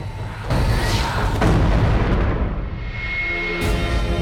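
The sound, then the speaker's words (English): An airstrike explosion destroying an aircraft: a sudden heavy booming blast with a second surge of rumble, fading out before a brief sharp crack near the end. “Matt, Mahinda and Hero look on as an airstrike obliterates the aircraft.”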